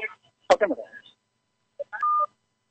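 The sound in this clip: Telephone keypad dialing tones sound while a caller is being connected: a brief burst of voice first, then a few short beeps ending in one longer steady tone.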